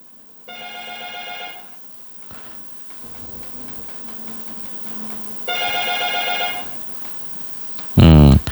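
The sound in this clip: An ordinary telephone rings for an incoming call, giving two steady electronic ring bursts separated by a long quiet gap, and a brief loud noise follows at the end.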